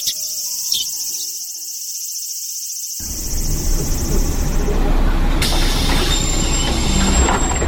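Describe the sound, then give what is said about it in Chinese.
A city bus on route 756, bound for Tamkang University, pulls into a stop as a broad rumbling, hissing noise swells in partway through and holds, with a high steady whine running throughout. “756公车进站，本车开往淡江大学。”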